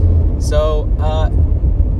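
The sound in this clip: Car driving, a steady low engine and road rumble from inside the moving vehicle, continuous throughout, with brief vocal sounds rising over it.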